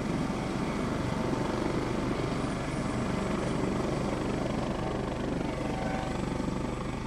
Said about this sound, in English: it would seem that's the sound of a US Coast Guard helicopter getting out of the way of the public before taking off